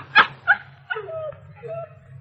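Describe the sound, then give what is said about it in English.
A small dog outdoors in cold evening snow gives three short, sharp yips, then a couple of higher, drawn-out whimpering whines, all over a faint steady low hum. “they are walking back home in the cold evening, as the little dog scampers around them in the snow, happy to be with his new masters.”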